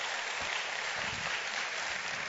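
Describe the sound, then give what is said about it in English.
A church audience claps hands together in a dense, even patter of applause that holds steady from start to finish, with no voices rising above it. “let's give God a clap offering for that”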